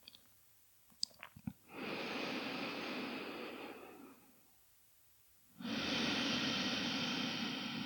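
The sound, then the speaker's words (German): Airy nasal breathing during an alternate-nostril breathing exercise, ending with an exhale through the right nostril: two long, soft, hissing breaths of a few seconds each, separated by a quiet pause, after a few faint clicks and no talk. “und dann atme aus durch das rechte Nasenloch, durch den Sonnenkanal. Die letzte Runde abschließen mit der Ausatmung durchs rechte Nasenloch.”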